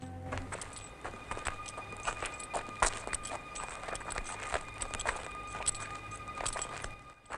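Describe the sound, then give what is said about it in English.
Slow footsteps of five men walking down a deserted main street, many irregular soft steps overlapping over a low steady hum, fairly faint throughout. “Rumpo and his four men start walking slowly down the deserted main street.”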